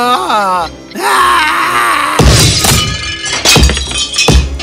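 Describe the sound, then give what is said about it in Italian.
A clock is smashed to pieces in a fairy-tale scene: a long groaning, wailing voice comes first, then several heavy crashing and shattering impacts. “Oh, l'orologio era così bello anche mentre veniva distrutto.”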